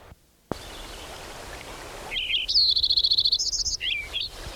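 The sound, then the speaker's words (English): A Lincoln's sparrow sings one bright, high song of rapid trills and buzzy, repeated notes lasting about two seconds. A steady hiss comes before and under it, with a short moment of silence near the start. “Lincoln Sparrow number 10 continued.”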